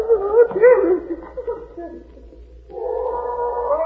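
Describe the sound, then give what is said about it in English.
A dog gives short whining and yelping sounds that rise and fall in pitch, followed by a quieter stretch and a steadier low whine. “Oh, I've got to get rid of that blasted dog.”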